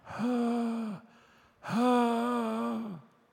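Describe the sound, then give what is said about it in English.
A man's voice imitates a dying woman groaning, giving two long, sustained low moans with a steady pitch, each tapering off at the end, separated by a short breath. “And she was lying there, and she was groaning. She was making this sound.”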